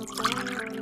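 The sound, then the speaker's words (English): Wine poured into a glass makes a short, faint trickling splash of liquid that runs for under a second. “That's the sound of wine in my glass and me drinking it guilt-free”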